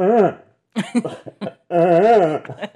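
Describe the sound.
A voice imitates a masked horror-film killer's weird, strained moaning during physical exertion: a few voiced groans with wavering pitch, the first and last drawn out, with short grunting bursts between.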